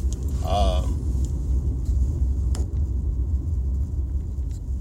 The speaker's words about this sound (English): Now, all the noise you hear is because I'm in my car.